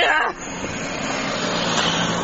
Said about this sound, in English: Oh no, the car's coming back.